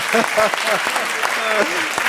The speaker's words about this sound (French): Vous pouvez applaudir Jean Ziegler.